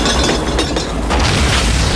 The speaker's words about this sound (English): The wagon crashes into the saloon and the nitro explodes, ripping the building apart.